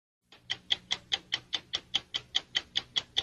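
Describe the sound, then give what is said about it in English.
Ticking of the 60 Minutes television clock: crisp, bright ticks at a steady rate of about five per second, evenly spaced and heard alone. “the ticking of the 60 minutes clock, is a common sound”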